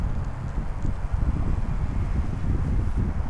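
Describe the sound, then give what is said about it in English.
Breezy wind blows outdoors at night on the south side of Ottawa: a steady, low, rumbling rush with uneven gusts and no voices. “Nice breezy night out here.”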